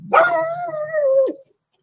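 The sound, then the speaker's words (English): A dog gives one drawn-out, tonal bark-yowl lasting a little over a second, holding a steady pitch before a short drop at the end, loud and alone. “My dog's going to start barking here in just a second.”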